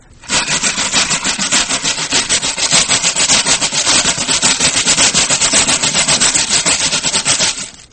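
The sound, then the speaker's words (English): Stiff wire brush scraped across sandpaper to imitate a train, giving loud, steady, rhythmic scratching pulses that chug evenly for about seven seconds. “why don't we create a train artificially?”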